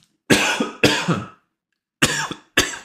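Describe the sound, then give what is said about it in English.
A coughing fit from someone whose throat feels irritated as if by inhaled sand: four harsh, loud coughs in two quick pairs separated by a pause, with no talking. “I swear to God, I've been getting these coughing fits.”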